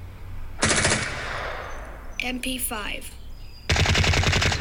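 PKM machine gun firing: two long bursts of rapid, loud automatic fire separated by a short gap with some mechanical rattling.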